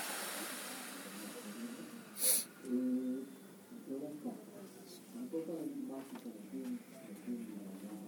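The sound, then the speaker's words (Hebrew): Deep breathing in a guided breathing exercise at a communication workshop: a faint, drawn-out airy breath opens, then a short, sharp rush of air follows, and a quiet voice talks afterward. “שאיפה שנייה, נשיפה. שאיפה שלישית, נשיפה.”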